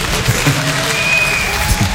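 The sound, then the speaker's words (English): Scattered, rippling applause from a live audience, with claps arriving unevenly rather than in unison, forming a moderately loud, continuous patter that never settles into a shared beat. “Ah, lovely. The ripple there. This nearly the Zen clap of acceptance there, wasn't it?”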